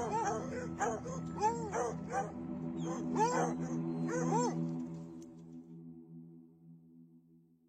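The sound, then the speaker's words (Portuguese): A group of dogs yelps and whines in short, rising-and-falling cries over a steady low hum, then the cries fade out and leave only the hum. “Quando você chega nesse ponto, você vê a Costa Dourada. Ela é cercada por vários cães.”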